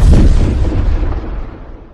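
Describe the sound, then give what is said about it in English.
An explosion from a monster being blown apart in a Japanese superhero action scene bursts loud at once with a deep, heavy boom, then rumbles and fades steadily over about two seconds. “hitting him dead on, making him explode”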